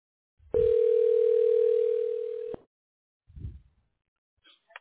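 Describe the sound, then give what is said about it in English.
A telephone dial tone sounds as the caller prepares to dial: a steady, loud, unwavering tone lasting about two seconds that cuts off abruptly, followed by a few soft low thumps and faint brief beeps. “I'm dialing.”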